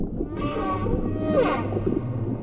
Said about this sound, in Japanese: かわいそうなクジラちゃまだな。